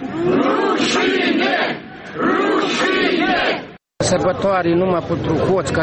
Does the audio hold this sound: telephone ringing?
no